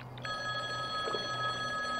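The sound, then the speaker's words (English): A payphone rings with a steady electronic tone that is held throughout, fairly faint, with no talk over it. “the payphone, that's here for some reason. It's ringing.”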